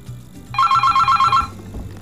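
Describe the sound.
A phone rings with an incoming call-in caller: a single burst of rapid, high, warbling electronic trill lasting about a second over a low background rumble.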